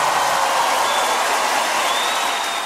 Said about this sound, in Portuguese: Uma bela salva de palmas para vocês.